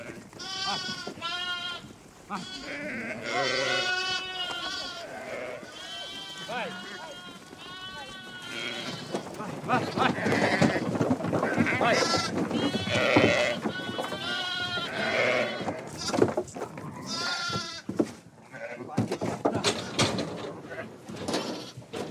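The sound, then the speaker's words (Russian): Sheep bleat over and over as a buyer herds them into the bed of a pickup truck; loud, wavering bleats come in many overlapping calls, with the background growing busier and noisier in the second half. “Мать продала овец. Покупатель загоняет их в кузов пикапа.”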